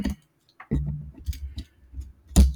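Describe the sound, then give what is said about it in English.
A microphone being moved and adjusted on its stand makes several sharp knocks, clicks and thumps, separated by quiet gaps, with a final heavier bump at the end. “Let me get my mic out of my way here real quick. Sorry about all the extra noise that you're probably hearing.”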